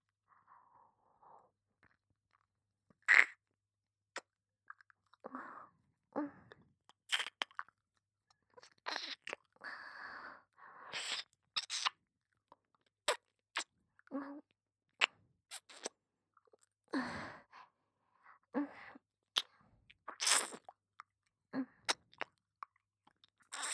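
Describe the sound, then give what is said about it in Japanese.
Slow, gentle tongue licking around an ear: many soft wet smacks, clicks and slurps come in irregular bursts separated by silent gaps, all quiet and close. “こうやって舌で舐め回すようにして、最初はゆっくりゆっくりやらせていただきますね。”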